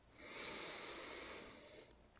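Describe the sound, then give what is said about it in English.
A deep breath drawn in through the nose during a meditation: one slow, soft, airy inhale lasting nearly two seconds, quiet and alone without talk. “Let us begin with three deep breaths. Inhaling through the nose.”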